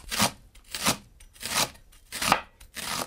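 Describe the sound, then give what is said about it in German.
A freshly sharpened knife cuts leek into medium pieces. Crisp, scraping slicing strokes come in a steady rhythm, roughly one every 0.7 seconds, with quiet gaps between them. “Das Messer ist frisch geschliffen, das ist übrigens das Wichtigste, ein scharfes Messer. Und dann schneiden wir den Porree mal so in mittelgroße Stücke.”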